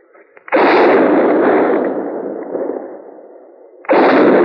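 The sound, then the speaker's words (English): Two loud gunshots ring out from a buffalo hunter shooting from the middle of a herd. The first blast is followed by a long, rumbling decay, and the second bursts in sharply near the end. “What in the world is he shooting at now?”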